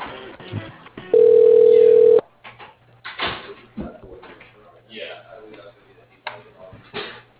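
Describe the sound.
A telephone line tone sounds while a call to a voicemail goes through: a single loud, steady tone of about a second, followed by faint clicks and rustling.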